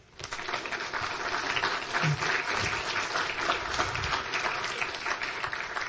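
Warm audience applause welcomes a guest onto the stage. Dense clapping starts abruptly and stays steady and full for about six seconds.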